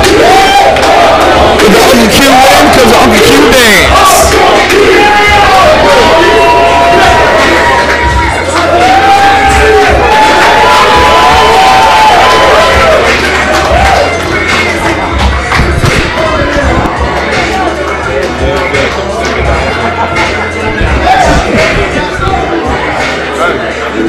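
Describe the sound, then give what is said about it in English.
A crowd cheers loudly for a wrestler after a hard-fought match at a wrestling event. A continuous roar carries sharp shouts, whoops and thuds, and it stays loud from start to finish. “This crowd is hot for Apollo, and Apollo's giving the love back. He on crowd talk right now.”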